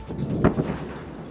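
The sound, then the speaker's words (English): A single explosion at night in Gaza: one short, dull boom with a rumbling tail, fairly faint and heard alone. “Another night of explosions in the night sky in Gaza.”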